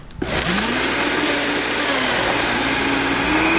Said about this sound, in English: Plus, you've got all these other flavors going on, so you don't want to waste that $16 bottle olive oil on. So you just kind of stretch it out with a little bit of the salad oil. And we're just going to puree that up.